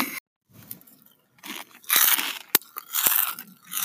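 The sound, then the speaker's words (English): Crunchy chewing as someone eats in an ASMR-style recording: crisp bites and crunches come in irregular bursts, some loud and sharp, broken by brief quiet gaps, with no talk. “Some people even enjoy the sound of people eating.”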